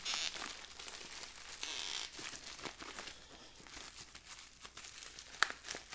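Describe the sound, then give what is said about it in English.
Crinkling and tearing of tape and wrapping as a taped beer package is opened, a quiet, continuous crackle with scattered sharper rips and no talk. “Of course, this one's taped a little bit better, so it's going to be harder to open here.”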